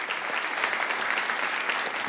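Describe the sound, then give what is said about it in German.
Audience applause at a live show, steady and dense clapping from many hands that holds at an even, moderately loud level from start to finish with no break. “kein schlechter Applaus.”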